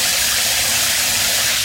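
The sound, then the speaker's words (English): Water from a running shower rushes in a loud, steady hiss that stays constant in level, with no breaks or other sounds. “Did you know taking just 2 minutes less in the shower could save more than 6,000 litres of water per person every year?”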